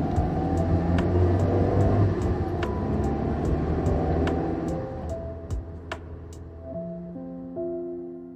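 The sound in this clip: A steady, dense low rumble fills the inside of a moving car, with a few faint sharp ticks and a soft hum that grows near the end. No one speaks.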